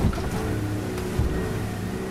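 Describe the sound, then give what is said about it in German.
Steady roar of a boat racing through ocean waves at 25 knots, spray coming aboard, with rushing water and engine noise broken by a couple of dull thumps as the hull slams the swell. “25 Knoten, das sind 46 Kilometer pro Stunde. Das Schlagen des Bootes in den Wellen, das ist eine echte ozeanografische Erfahrung, die wir hier gerade sammeln.”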